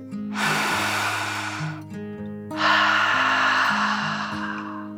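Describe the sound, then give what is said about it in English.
A deep breath drawn in and then let out, two long airy rushes of broad hiss, the inhale followed by a brief pause and a slightly louder exhale, set over a soft sustained low musical tone with no talking. “Wynn took a deep dragon breath in and out.”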